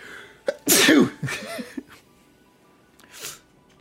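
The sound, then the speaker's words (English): A single loud human sneeze bursts out sharply after a short intake of breath, followed by a few fainter breathy sounds and a brief quiet stretch. “hold on, I'm so sorry, I gotta sneeze.”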